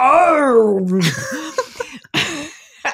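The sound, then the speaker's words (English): A voice imitates a deep, throaty cough with an Australian accent. It starts as a long groaning vocal sound that falls in pitch, then breaks into a few short, rough, clipped bursts. “I don't want to just seduce our whole listenership by doing a real Rowan Mangan cough. It was a deep, throaty thing. It had an Australian accent. It was like,”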